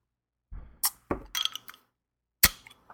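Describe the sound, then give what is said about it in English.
Sharp glass clinks and a crack as a beer is opened, with a few brief, bright knocks and rattles spaced out, then a final loud clink. “Are we cracking it? I'm sorry, I didn't hear you, but I hear the glugs.”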